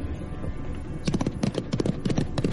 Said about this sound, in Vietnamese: Một con khoái mã trong thành chạy như bay, người cưỡi ngựa tay cầm lệnh bài, lớn tiếng hò hét